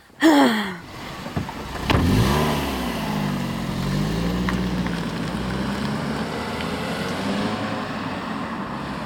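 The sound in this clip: A car setting off for a summer house: a loud burst of engine revving whose pitch sweeps downward, then a steady, sustained engine drone as it pulls away.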